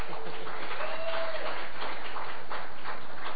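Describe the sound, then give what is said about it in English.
Applause from a gathering welcoming back a man returned from Florida, where he went to help hurricane victims: steady, continuous clapping that stays level throughout. “Let's give Brian a hand.”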